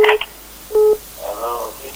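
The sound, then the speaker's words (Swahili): An incoming telephone call connects on a radio phone-in line with two short electronic dial tones, a brief one and then a held one. A voice follows on the line. “asante sana, ngoja tupokee simu hapa”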